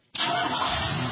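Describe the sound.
A car engine starts: after a moment of quiet it catches abruptly and settles straight into a loud, steady running roar, with no voices.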